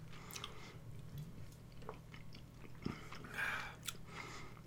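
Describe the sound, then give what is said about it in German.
Faint chewing and biting of food: a few soft crunches and wet mouth sounds, with no talking. “wir wollen jetzt nicht zwei Minuten beim Kauen zuhören.”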